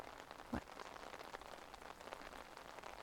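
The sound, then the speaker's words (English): Rain falling outdoors makes a faint, steady hiss of patter with scattered drops and one slightly sharper tap early on. “Tell me, what's got you out here in the rain?”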